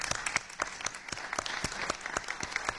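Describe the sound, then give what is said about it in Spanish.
An audience in a conference hall applauds the presenters with fairly quiet, steady clapping from many hands. Individual claps stand out throughout, and no voices rise above it. “Yo creo que toda la sala les debe un aplauso por el trabajo que”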